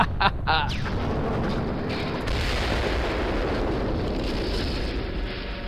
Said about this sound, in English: The rocket ship hits the planet!